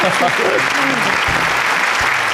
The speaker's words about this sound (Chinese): 完全正确啊，给自己鼓掌吧。